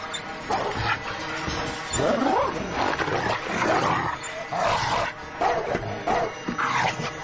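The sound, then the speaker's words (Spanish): A dog barks and snarls as it leaps at a car window trying to get in, in a thriller film scene; loud, aggressive growls and barks come in a continuous run. “El perro salta y se queda colgado de la ventana. Ella gira la manivela. Él intenta entrar.”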